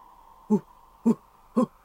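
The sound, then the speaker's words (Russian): Three hoots from a large white owl, short and low-pitched, evenly spaced about half a second apart, standing alone over a faint steady hum. “В этот момент что-то большое и белое мелькнуло в воздухе и приземлилось у его ног. Это была белая сова, очень большая, со взрослого гнома.”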